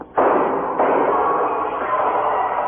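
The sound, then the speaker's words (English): A gunshot in an audio drama: a sharp, loud burst that swells into a sustained noisy roar, with a second jolt soon after, the roar holding steady to the end. “Drasko must have brought a gun.”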